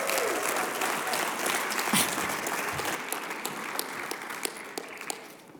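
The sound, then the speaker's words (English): Church audience applauding to welcome a pastor to the stage: dense, steady clapping that gradually thins, with a few sharper individual claps standing out toward the end. “would you put your hands together and would you welcome back to our stage, Pastor Julie Spear.”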